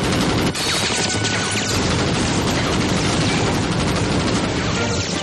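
Dense, chaotic gunfire in a video game battle as a pistol is fired at an attack helicopter, a loud, unbroken wall of shots and crashing noise lasting throughout.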